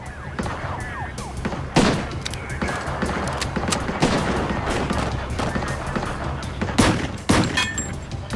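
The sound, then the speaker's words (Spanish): Gunfire from several guns in a shootout between officers and a gunman: many sharp, irregular cracks overlapping at varying loudness, with a few heavier reports standing out above the rest. “Agentes y oficiales siguieron disparando.”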